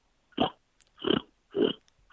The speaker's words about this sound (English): that's just like a pig snort. Uh-huh. I can do that with my mouth.